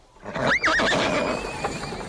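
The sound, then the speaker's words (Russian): A gelding neighs as it is led out, one loud whinny with a wavering, quavering pitch, followed by lower snorting and shuffling noise that slowly settles. “Мерина! Мерина! Мерина выводит!”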